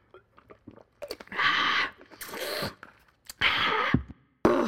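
Cake is chewed and munched up close, mukbang style, in a few loud bursts of moist, crunchy mastication separated by quieter smacks and clicks.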